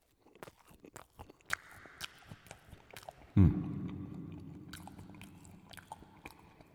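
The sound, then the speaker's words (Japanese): Someone eats a cream puff with many soft, irregular chewing and biting clicks, with one sudden louder crunchy bite partway through followed by a brief muffled rustle. No one speaks. “今日はシュークリームの方いただきたいと思います。いきます。”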